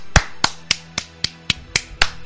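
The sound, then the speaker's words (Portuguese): One person clapping their hands in applause, a steady series of sharp, crisp single claps evenly spaced about a quarter second apart, loud and alone with no voices. “Então vai ser eu mesmo que dou aqui os aplausos, ó.”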